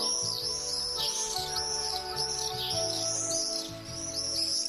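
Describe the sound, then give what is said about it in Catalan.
Common swifts give shrill, high screaming trills, repeated over and over in quick succession above a low tonal background that continues throughout. “El falciot comú, conegut com a vencejo en castellà, és una de les aus més ben adaptades pel vol”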